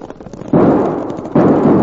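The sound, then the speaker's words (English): Winchester army rifles fire in a fight against a cavalry troop. Two loud, harsh blasts are heard, each ringing on for almost a second. “Now get them Winchesters working! Them are army rifles!”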